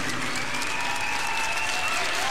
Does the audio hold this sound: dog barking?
no